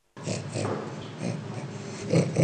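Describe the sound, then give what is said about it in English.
Snort-like vocalization from an orangutan: a continuous rough, breathy snorting lasting over two seconds, with louder throaty bursts toward the end. “Why don't we play the orangutan? Here's the orangutan.”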